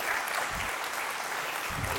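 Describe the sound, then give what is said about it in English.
A church audience applauds to welcome the preacher before the sermon, a dense, steady clapping that stays even and sustained throughout. “I want you to put your hands together and I want you to welcome Matt as he brings the sermon this morning.”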